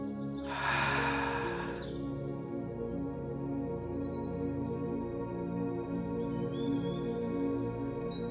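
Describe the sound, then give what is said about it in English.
A single loud deep breath, an inhale and exhale, lasts about a second over soft, steady sustained tones, then fades, leaving only the quiet tonal backdrop. “Take a deep breath in as we begin to prepare our soup. And exhale.”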